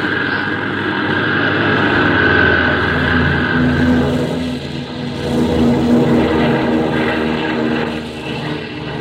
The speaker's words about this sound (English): All right now, kids, fasten your seat belts. We're ready for the big takeoff.